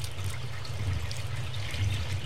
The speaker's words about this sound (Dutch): En die ga ik vullen met water. Het bekertje vult zich steeds meer.